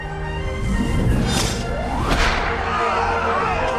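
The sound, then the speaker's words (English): Fight-scene impacts as a man leaps into a flying kick that knocks over a group of mobsters, loud swooshes and crashing hits layered over a dense, continuous roar of effects. “They spring into action, the tailor using his fists and the coolie using his feet. The coolie leaps into the air and kicks a group of mobsters over.”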